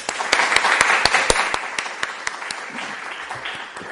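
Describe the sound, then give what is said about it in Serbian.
Applause from an audience welcoming a poet at a literary evening, starting with sharp, distinct claps that gradually thin out and soften toward the end. “i ja vas molim da vas najpre da ga pozdravimo jednim aplauzom.”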